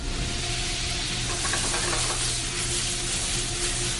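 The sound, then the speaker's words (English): Meat sizzles as it sautés and flames in a pan for lomo saltado. The hiss is dense and even and holds a constant loudness throughout, with no talk. “I start sautéing the meat so that I can get flame, so the meat get a flavor on it.”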